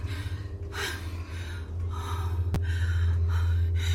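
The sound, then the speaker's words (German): A choking person gasps for breath, a few harsh, breathy gasps spaced over a low steady hum. “Du wirst dran ersticken! Atme tief durch!”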